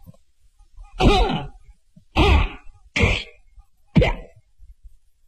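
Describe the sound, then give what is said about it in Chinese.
A man coughing loudly outside with a deep, forceful chest: four strong, throaty bursts spaced roughly a second apart, each with a rough low tone. No talk. “就听外边有人咳嗽了一声，这声咳嗽听出来底气都特别足。”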